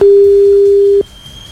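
Telephone ringback tone on an unanswered call: one steady, mid-pitched tone holds for about a second, then cuts off into near silence.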